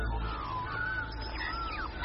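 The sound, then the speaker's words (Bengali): Calls of a flock of colorful birds flying overhead along a seashore lined with coconut palms: faint drawn-out whistling and cawing notes over a steady, loud low rumble. “আর এই সৌন্দর্যের সঙ্গে পাল্লা দিয়ে মাঝে মধ্যেই মাথার উপর দিয়ে উড়ে যাচ্ছে ঝাঁকে ঝাঁকে রং বেরঙের পাখি।”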